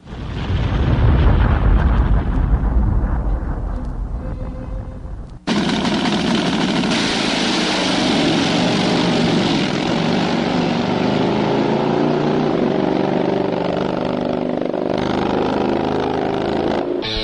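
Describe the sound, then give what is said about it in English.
Thunderous roar of Harley motorcycles drag racing: a loud, continuous engine blast for about five seconds, a brief cut, then a sustained revving roar with steady droning tones to the end. “It's time to go drag racing! 200 plus miles per hour. And it's time for drag racing Harley style.”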